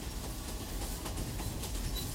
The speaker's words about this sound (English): Well, this isn't any old train, in fact. It's part of the famous Bangkok to Rangoon Railway, built by prisoners of war during the Second World War.